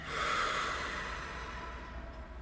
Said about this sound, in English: take a deep breath. Let it out.